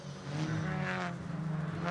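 A race car engine roars steadily at high revs during qualifying at Daytona, one of the Audi RS3 touring cars in the 2023 Michelin Pilot Challenge. The sustained, loud drone holds a fairly even pitch throughout, with no talk.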